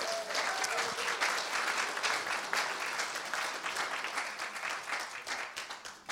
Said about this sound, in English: So why don't you give a warm welcome to Hudi. Hudi, why don't you come on up?